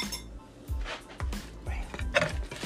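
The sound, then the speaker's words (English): A fork clinking against a plate while a simple breakfast is served, several bright metallic taps and scrapes spaced irregularly, fairly quiet and heard alone. “Right now we need a fork. You never forget your utensils.”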